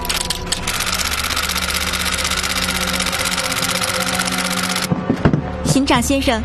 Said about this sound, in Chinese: 行长先生，已经打印完毕。